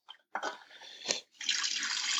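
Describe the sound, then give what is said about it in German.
Cold tap water runs into a pot of eggs, a hissing, splashing flow that starts briefly, runs, pauses, then pours steadily and loudly to the end. “Kaltes Wasser. Füllt den Topf weiter.”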